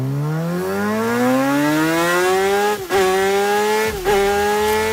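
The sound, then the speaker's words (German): A MotoGP racing motorcycle engine screams at high speed on a lap of the Spielberg ring, its loud, siren-like whine climbing steadily in pitch, broken by two brief dips from gear changes before climbing again. “Also du kannst mit einem MotoGP-Testfahrer eine Runde über den Spielbergring fahren”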